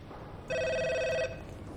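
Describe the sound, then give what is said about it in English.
A telephone rings once, a single bright, steady electronic ring lasting under a second that stops abruptly, over faint background hiss. “The phone rings.”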